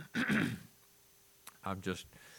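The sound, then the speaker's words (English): A lingering cough caught from grandchildren: a harsh, throaty burst, then after a short pause a couple of shorter voiced hacks. “I love this cough I have. It's a present from my grandkids.”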